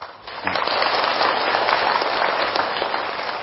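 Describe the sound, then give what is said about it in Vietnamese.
Audience clapping during a Buddhist talk: dense, continuous applause that swells in after half a second, holds steady and loud, then eases slightly near the end. “An lạc chưa mà vỗ tay dữ vậy.”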